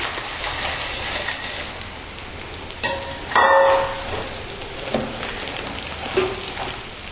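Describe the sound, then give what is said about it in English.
Soya protein sizzling in hot oil with softened onions as it is stirred: a steady, bright crackling hiss throughout, with a brief louder clang of a utensil partway through. “So the next step is to add the soya protein itself and then stir it around so it soaks up some of the oil. So I'm adding the soya protein.”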